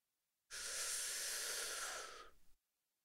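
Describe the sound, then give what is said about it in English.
A single long, deep breath drawn in during a calming stretching exercise: a steady, airy rush lasting about two seconds that breaks into a few soft flutters as it trails off. “Reach your hands high up to the sky and take a big breath in.”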